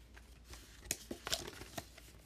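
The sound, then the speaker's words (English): Crinkly tearing and crackling as a trading card game booster pack is ripped open, a few sharp plastic-foil bursts over a faint steady background. “I thought I would just open up a pack and see what cards I could get.”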